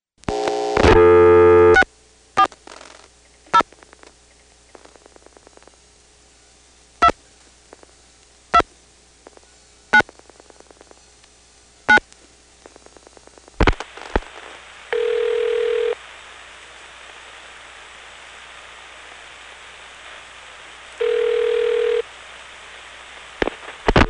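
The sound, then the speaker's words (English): A telephone exchange register sender outpulses the digits 40 after 640 is dialed. A loud tone burst opens it, followed by sparse, sharp relay clicks at uneven intervals, then two short, steady tones separated by a quiet gap. “When I dial 640, you will hear the register sender dial 40.”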